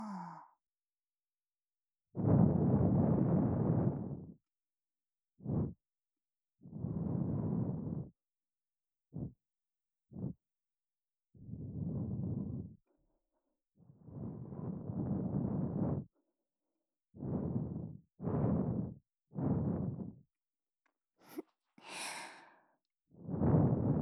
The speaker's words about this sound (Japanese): では、先ほどと同じようにお耳の中、ふうふうってしていきます。